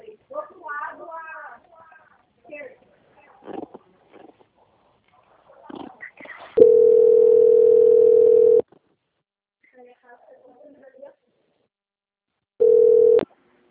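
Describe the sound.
Telephone line tone while a call is being transferred: a long, steady mid-pitched tone and later a short burst of the same tone, with voices talking before it.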